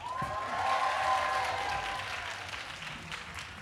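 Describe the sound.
Audience applause at a live show, a dense, continuous clatter of clapping that is strongest early and then slowly thins, with a few voices mixed in.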